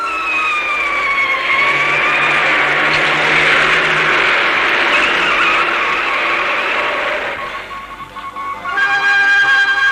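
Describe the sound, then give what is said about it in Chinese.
A police car siren arrives with a loud, continuous wailing tone that slowly sweeps in pitch. A broad roar of vehicle noise sits under it for about ten seconds. “兰芬刚走，敌人的警车就赶来了。”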